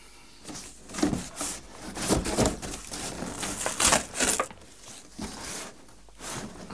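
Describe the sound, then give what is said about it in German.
Rustling and crinkling of wrapping as an old icon of Saint Demetrios is unpacked. Many irregular scraping and crackling bursts of varying loudness run throughout. “Soll ich die Ikone auspacken? Bitte.”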